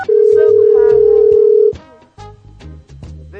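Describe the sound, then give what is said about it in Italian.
A Skype incoming-call ringtone opens with a loud, steady electronic tone lasting about a second and a half over lower tones. Quieter musical notes then continue. “È comparso Radio NK su Skype, cosa vogliamo fare?”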